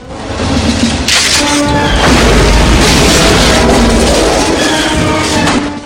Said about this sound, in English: He opens fire with his shotgun.